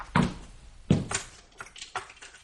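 A drawer is opened during a search for misplaced reading glasses: two heavy wooden knocks, then a few softer, lighter clunks and rattles.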